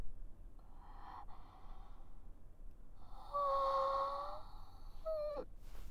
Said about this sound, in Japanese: 大きいあくび